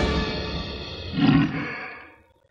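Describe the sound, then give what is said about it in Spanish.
A deep, rough animal roar that swells to a loud peak midway and then fades out over about two seconds, with no voices present. “Se asoman temerosos hacia el lugar de donde viene el rugido.”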